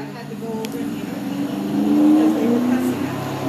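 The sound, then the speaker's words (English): Vehicles cross on Euclid Avenue near the 60 freeway, a steady low traffic rumble that swells into a louder pass around the middle and then eases off slightly. “There that's amplification of vehicles engaging in crossing path on Euclid Avenue while surrounded by activity on the 60 freeway.”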